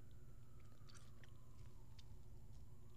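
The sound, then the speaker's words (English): Faint, soft chewing of a croissant filled with creamy frosting, with wet smacking and a few small clicks over a low steady hum, without talk. “I'm eating a jelly-filled croissant.”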